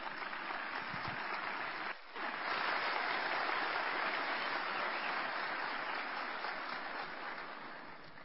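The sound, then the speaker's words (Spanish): Sustained audience applause greets the minister of culture and heritage at a 75th-anniversary ceremony of a national culture house, a dense, even clatter of many hands that dips briefly after about two seconds, then swells back and holds steady. “Demos un fuerte aplauso al ministro de Cultura y Patrimonio, Juan Fernando Velasco.”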